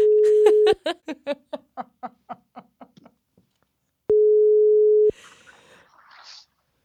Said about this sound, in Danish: nu prøver vi vores andet telefonopkald i podcastens historie. og den her gang bliver det et three-way opkald.